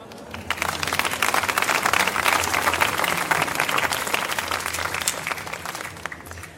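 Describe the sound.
Audience applause welcomes guests to a book discussion event. Dense clapping rises quickly, holds steady and full for several seconds, then fades out.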